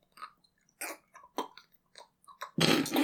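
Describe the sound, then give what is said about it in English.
Wet, squelchy mouth noises made by a voice imitating mac and cheese being stirred: a few short smacking bursts, then a longer, louder gooey squish at the end. “I just love the sound of stirring mac and cheese.”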